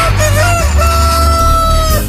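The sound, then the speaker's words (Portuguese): A rooster crows in one long, drawn-out, loud call that holds a steady pitch for about two seconds, with no voices present. “Canta, galo velho.”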